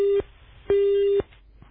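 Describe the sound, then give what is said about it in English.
A telephone busy signal sounds on a call-in line after a caller drops: a cut-off beep, then one full steady mid-pitched beep, each separated by a short silence, with no talk. “which caller did we drop? Can we just find out if contestant one is still there?”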